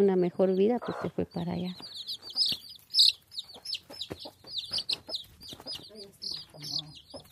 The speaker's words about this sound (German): Auf dem staubigen Boden picken 10 gelbe Küken zwischen den Beinen der Besucherinnen nach Krümeln.